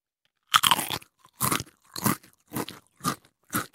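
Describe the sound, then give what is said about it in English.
Crunching of salty chips: six crisp, fairly loud bites and chews in an even rhythm with short silences between them, and no talking. “Here's chip number one. Mmm, salty. Here's chip number two.”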